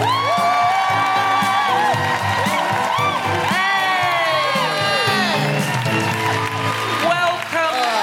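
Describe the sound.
Loud cheering and whooping from a live comedy audience in Glasgow welcoming a guest on stage, with many shouting voices and some clapping that stay strong and continuous throughout.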